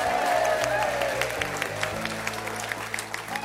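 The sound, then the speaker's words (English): Live audience applause at a music show on the University of West Florida's Pensacola campus: a dense, steady wash of many hands clapping that holds loud throughout, easing only slightly toward the end. “Give yourselves another big hand.”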